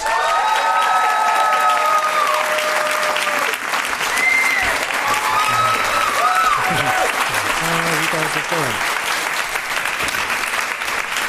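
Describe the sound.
An audience at an Inforum event applauds as two speakers are welcomed to the stage, a dense, even wash of clapping that holds steady in loudness throughout, with some voices in the crowd.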